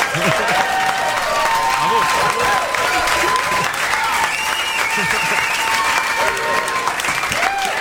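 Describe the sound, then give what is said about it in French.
Steady applause with dense clapping that runs the whole way through, with voices audible over the clapping. “Mais pourquoi on applaudit, je comprends pas.”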